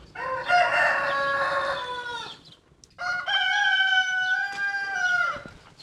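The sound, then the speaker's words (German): Two roosters crow, one higher-voiced and one deeper, giving two long drawn-out calls one after the other, each rising and then trailing off, with no talk over them. “Scheinen zwei zu sein. Der helle und der dunkle Hahn, also von der Stimmlage her, egal.”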